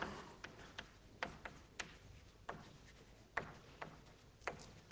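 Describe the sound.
Writing on a board during a mathematics lecture on logic, heard as faint, irregular sharp taps and light scratches over a low hiss, with no speech.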